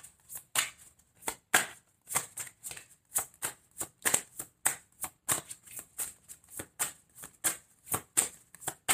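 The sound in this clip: Tarot cards are shuffled and drawn in many quick, crisp riffling bursts that repeat in a steady, even rhythm. No one speaks.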